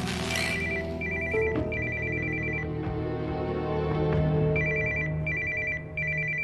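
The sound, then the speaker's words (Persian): A telephone rings with repeated bursts of bright electronic trilling beeps in paired groups, playing over steady background music. “بهت زنگ میزنن، تلفنو جواب بده.”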